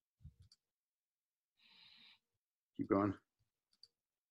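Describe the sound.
Mouse clicks when opening a profile's story: a few short, sharp clicks near the start and one more near the end, with a brief burst of voice and a soft hiss in between.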